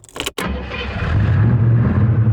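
A muscle car with a loud exhaust starts up: a brief burst of cranking breaks off, then the engine catches and settles into a deep, steady, throaty idle that grows slightly louder.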